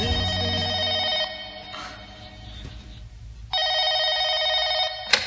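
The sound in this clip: A telephone rings with an incoming call: two bursts of a bright, trilling electronic ring, separated by a short quiet gap.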